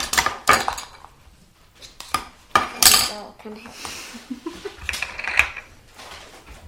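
A spoon scrapes and clinks against a container in many irregular metallic taps and rasping scrapes of varying loudness, with brief pauses between bursts.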